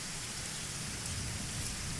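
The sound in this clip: Rain falls steadily as a dense, continuous hiss that stays even throughout, with a low rumble beneath it.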